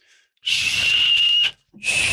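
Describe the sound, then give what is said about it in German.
Someone whistles at a bottle of German herbal liqueur from the Sauerland. Two airy, hissy whistles with a high tone follow each other: a long one of about a second, then a second whistle that is cut off at the end. “Und man pfeift den an, so.”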